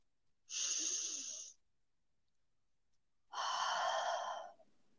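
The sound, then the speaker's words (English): A deep breath taken together during a guided visualization meditation: two long, airy breath sounds, each lasting about a second, separated by a stretch of near silence, with no talk. “So let's take a deep breath together.”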